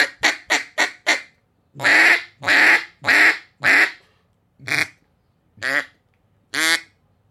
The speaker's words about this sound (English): I think that one of the coolest things about a duck call is being able to go from to a flat quack to a pressurized quack.